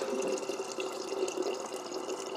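Fresh spring water being poured, a steady continuous splashing rush that holds at an even level throughout with no voices.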